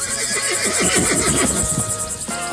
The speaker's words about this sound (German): Die Tiere haben alle ein Mikro und man hört sie. Moment, kommt ein Pferd.